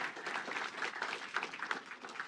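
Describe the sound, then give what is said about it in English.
Audience applause rewards volunteer helpers at a Christmas gathering. The clapping is soft and steady, with a crackly texture and small surges throughout. “round of applause for our helpers,”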